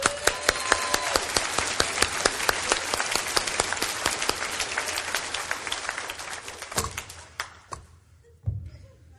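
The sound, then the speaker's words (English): An audience at a Bible quiz session claps in applause. A dense burst of clapping thins over several seconds into a few scattered, separate claps at the end. “Give yourself a hand.”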